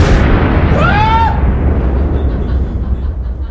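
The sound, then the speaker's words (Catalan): Loud, sustained rumbling roar of a spacecraft exploding sixteen minutes before landing after damage from a piece of foam, with a brief whistling tone sweeping through early on. “La nau explota... i els seus trossos s'escampen per tot l'estat de Texas.”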